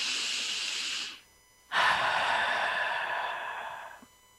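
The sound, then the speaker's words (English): A single deep breath: a steady, airy inhale of just over a second, a brief pause, then a stronger exhale that trails off over about two seconds. “take a deep breath”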